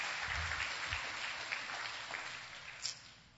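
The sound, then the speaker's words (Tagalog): Applause from a church audience clapping in praise of the Lord: a faint, steady wash of many hands that lasts throughout. “Purihin ang Panginoon. Palakpakan natin ang Panginoon. Hallelujah.”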